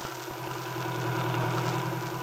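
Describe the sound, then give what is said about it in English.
Car engine droning steadily while driving along Kenmore Hill Road, a country road, a constant low, rumbling hum with no voices. “Now, having accomplished this neighborly mission, the two were driving along Kenmore Hill Road on the way back to town.”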